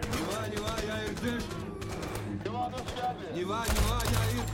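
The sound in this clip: Gunfire in a war film scene: an ambush on a mountain road in a gorge, with shots fired over a UAZ vehicle. Rapid cracking shots sound through a dense, steady mix, under loud, strained voices shouting throughout.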